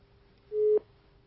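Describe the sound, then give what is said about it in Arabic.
Busy tone on a phone line after a call is cut off: a single short, steady mid-pitched beep that starts abruptly and stops sharply, alone over quiet line hiss. “طب انقطع الاتصال”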